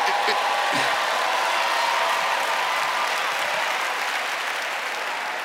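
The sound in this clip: A church audience applauds and cheers in a dense, steady roar of clapping and voices that holds at full loudness throughout.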